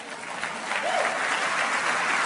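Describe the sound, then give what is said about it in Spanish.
Audience applause at a talk on the subconscious mind, a dense, steady wash of clapping that holds at an even, fairly loud level for the whole stretch, with no voices standing out. “Denle un aplauso a Enrique Flores, por favor.”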